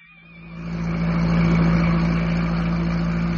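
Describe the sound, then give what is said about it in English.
A car engine as the car is driven away: a steady low drone with a thin tonal whine above it. It swells during the first second, then holds loud and even to the end. “For the next 3 hours, Tony drove as if his only desire were to distance himself from the room in Melton Mews.”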